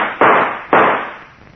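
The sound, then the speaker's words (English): Two loud gunshots ring out from a gun about half a second apart, each a sharp crack followed by a short fading tail. “All right, then I'll shoot.”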